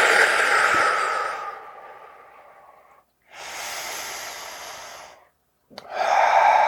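Deep breathing: a few long, airy, hissing breaths, each lasting a couple of seconds, separated by short silent pauses, with no talk.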